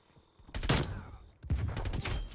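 Gunfire in a video game shooter: two loud bursts of rapid shots separated by a short lull, each volley dense and crackling.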